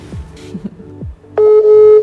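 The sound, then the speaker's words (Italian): A telephone call being dialed: after a few faint, brief sounds, a loud, steady mid-pitched line tone sets in and holds to the end. “ma lo stiamo chiamando. Vediamo se ci risponde.”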